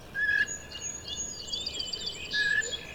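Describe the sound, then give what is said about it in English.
Red-winged blackbird calling: two clear whistled notes, one near the start and one near the end, each followed by higher, buzzy trilling phrases over a faint hiss of background. “Oh, red-winged blackbird.”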